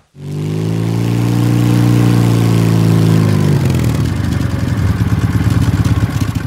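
A car engine runs with a loud, steady low drone, then shifts after a few seconds into a rougher, rhythmically pulsing throb, as if revving or pulling away.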